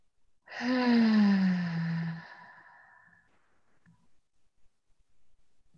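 A deep audible breath during a guided breathing exercise, heard as one long, voiced, sighing breath that drifts lower in pitch over about a second and a half, then trails into near silence with no speech.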